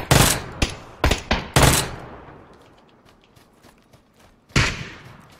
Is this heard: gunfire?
yes